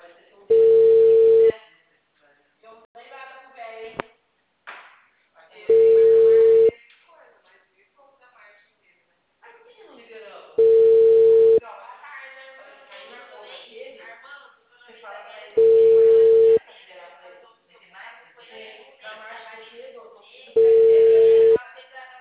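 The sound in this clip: Telephone ringing tone on a call that goes unanswered: five steady, evenly spaced rings of about a second each, roughly five seconds apart, with people talking in the gaps between rings.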